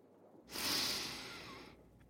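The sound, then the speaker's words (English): A single deep breath in through the nose, sniffing the smell of a home-cooked meal drifting from the kitchen. The soft, breathy hiss swells quickly, then tapers gradually before cutting off, heard alone and quiet. “Do you smell that? What? I'm barely awake, hon. Just take a deep breath.”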